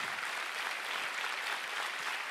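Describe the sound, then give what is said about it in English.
Church audience clapping hands during a worship service, a steady, dense wash of applause that runs evenly throughout with no talking. “Give the Lord a big hand clap if you believe that.”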